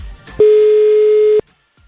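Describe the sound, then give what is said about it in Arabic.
A telephone line tone sounds while a call is placed to a contestant: a single steady, pure beep of about one second, followed by near silence. “يلا خلينا نتصل بأول شخص.”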